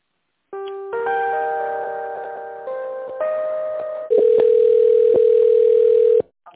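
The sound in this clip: Phone line tones during a call transfer to an employee at a company: a short run of stepped electronic tones, then a loud steady tone that holds for about two seconds before cutting off abruptly.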